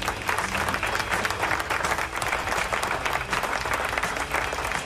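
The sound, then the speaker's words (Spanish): A crowd applauding: dense, steady clapping at an even loudness throughout, with no pause or break. “¡Aplauso!”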